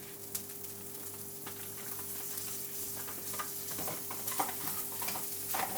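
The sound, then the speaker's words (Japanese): Butter rice sizzles faintly in a pan while being stirred, the rice starting to scorch onto the pan quickly. A steady frying hiss runs throughout, with light scraping from stirring and a constant low hum underneath. “バターご飯だもんね。バターライスか。バターライスね。え、焦げつくの早い。”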